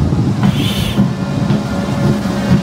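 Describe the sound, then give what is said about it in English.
Steady rolling rumble of a gun carriage drawn by a ceremonial Land Rover in a funeral procession in Barbados, a loud low drone of wheels and engine with faint clattering and a brief hiss. “the ceremonial Land Rover. And the gun carriage and being drawn by the Land Rover.”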